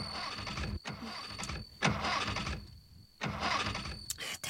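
A car engine cranks in a few rough bursts with short gaps and never catches, its fuel tank shot through; the loud, ragged churning stops and restarts without settling into an idle.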